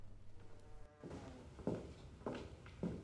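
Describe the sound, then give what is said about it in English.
Soft footsteps cross a bedroom. Three distinct, quiet steps fall at an even pace over a faint background hiss. “A door opens, then Elizabeth comes in and closes it behind her, before walking confidently towards her.”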